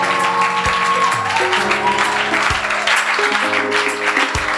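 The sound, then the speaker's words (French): Congregation clapping to acclaim God during a church service, a continuous wash of hands at steady volume laid over sustained keyboard chords that shift pitch several times. “Je veux que tu acclames Dieu déjà pour ta victoire.”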